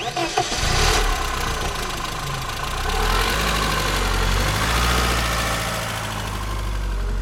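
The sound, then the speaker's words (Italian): A car engine runs smoothly and evenly at a steady idle after a brief burst of revving at the start. Its spark plugs, carburetion and injectors are in good order, and the loud mid-low hum holds constant with no voices. “È un motore perfetto, si sente, gira pulito, quindi le candele sono in ordine, la carburazione è in ordine, gli iniettori sono a posto”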